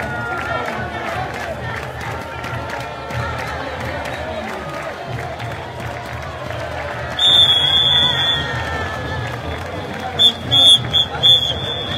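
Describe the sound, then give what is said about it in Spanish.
A crowd chants as a La Paz parade block passes through a plaza during a street parade. The dense mass of voices holds steady throughout, with louder bursts and sharp high tones later on. “Escuchemos el cantito.”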